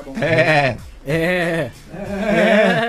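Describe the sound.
A goat bleats three times, each call a loud, quavering, nasal cry with short gaps between them.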